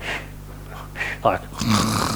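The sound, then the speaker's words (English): A voice imitates a man snoring in a train carriage, making a few rasping, snorting breaths with uneven pauses between them. “someone fell asleep in the carriage and snored like so”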